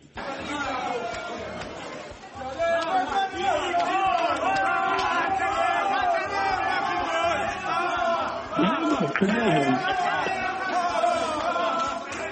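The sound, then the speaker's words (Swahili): Chadema supporters cheer and chatter as a dense crowd outside a courtroom after a verdict. Loud, continuous massed voices swell in after a brief quieter opening and stay steady to the end. “tunasikia hapo kwamba watu wakionyesha shangwe na furaha”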